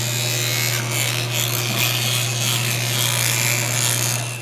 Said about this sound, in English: This is the sound of me brushing my teeth.